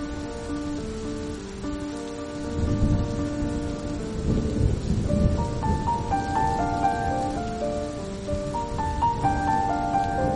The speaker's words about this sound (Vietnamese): Trời hôm ấy mưa càng thêm nặng hạt.